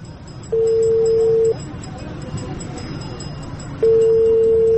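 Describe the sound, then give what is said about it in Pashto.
A phone call rings out on the line while someone calls ahead on the way to a village: a steady, low ringback tone sounds twice, each for about a second, with a pause of roughly two seconds between, over background hiss. “تصبر یو زنګ وهم”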